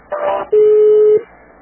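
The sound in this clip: A single steady telephone keypad beep from pressing 1 in an automated phone menu, held for over half a second and fairly loud, coming right after a brief muffled burst of sound.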